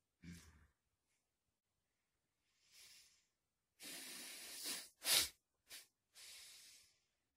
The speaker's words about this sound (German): Also praktisch, wenn ich jetzt die Nase nicht ganz so frei ist, dann hörst du das, wie ich atme.